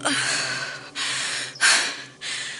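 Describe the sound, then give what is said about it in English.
Deep, loud, airy breathing from a woman with a sudden back pain: four long breaths separated by brief pauses, with no talk. “Rest a moment. Take deep breaths.”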